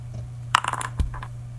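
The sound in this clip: Dice rattling in a Farkle dice video game: a quick clatter of light clicks and knocks, then a single firmer thump and a couple of faint taps, over a steady low electrical hum with no talk.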